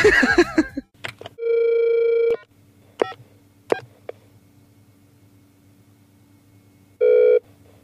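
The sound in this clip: Telephone ringback tone on a call to a game-show contestant while waiting for an answer: two steady, loud buzzing rings, a longer one of about a second and a shorter one later, with a few clicks between and a brief voice at the start.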